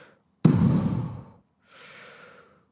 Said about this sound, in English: And now I'm doing this thing where I'm breathing out loud. I'm just going,